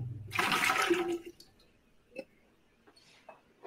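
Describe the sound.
Water pours off from a glass after measuring the displacement of ginger while preparing a cocktail. A brief, loud splashing gush lasts about a second, followed by a few faint clicks and taps in near quiet.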